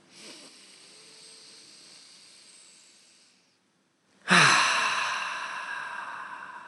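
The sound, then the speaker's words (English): One deep, conscious breath: a soft, airy inhale lasting a few seconds, then a short silent pause. A sudden loud, hissing exhale follows and slowly fades. “start with one deep conscious breath. So on me, let's inhale.”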